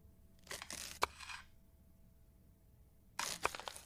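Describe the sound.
Knife slicing through a cake: two short, quiet bursts of crackly, scraping cutting with sharp crunchy ticks, separated by a silent gap.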